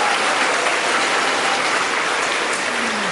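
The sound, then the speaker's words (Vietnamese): Dense, steady applause from a crowd of young men clapping, loud and even throughout with no pauses and no voices. “Các bạn trai vỗ tay làm cho các bạn gái nhìn xuống.”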